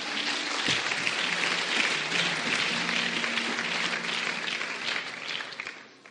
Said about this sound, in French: Acclamons le Seigneur, alléluia.